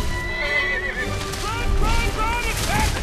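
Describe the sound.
A donkey gallops down a street with rapid clip-clopping hoofbeats and high whinnying cries. The sound is loud and busy, mixed with other chaotic sounds and voices.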